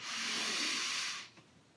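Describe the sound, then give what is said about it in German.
A single short inhalation during a breathing exercise makes an even, airy hiss that lasts about a second. It stops abruptly and leaves near silence. “Und der Rhythmus ist idealerweise so, dass ich kurz einatme, drei, vier Sekunden.”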